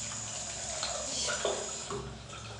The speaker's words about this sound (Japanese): ちょっと手洗って。